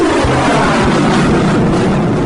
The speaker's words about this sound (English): You are clear for takeoff runway 21 left. Winds are calm. Stand by for the retrans on uniform. It's showtime.